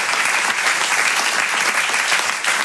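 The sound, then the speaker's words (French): Loud, sustained applause from a comedy club audience saluting the sound, lighting and stage crews, a thick, continuous roar of clapping that stays level from start to finish. “Comme d'habitude, je voudrais qu'on applaudisse très fort la régie son et lumière, la régie plateau, les équipes d'accueil.”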